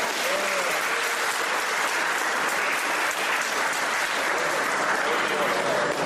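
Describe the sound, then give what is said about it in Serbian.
Audience applause at an event celebrating 35 years of the Star Wars franchise: a loud, unbroken roar of many hands clapping at a steady level, with faint voices beneath. “Ove godine Star Wars kao franšiza slavi 35 godina svog postojanja. Ajde, jedan aplauz za to.”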